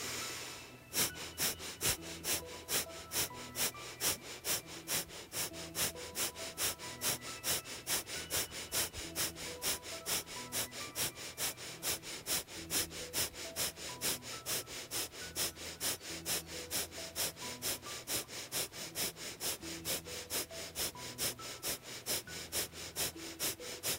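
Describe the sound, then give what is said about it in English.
Breath-of-fire breathing exercise: many quick, forceful nasal exhales in an even, rapid rhythm of roughly two per second, sustained quietly throughout with no talking. “And so we're also going to do this one with breath of fire for 1 minute.”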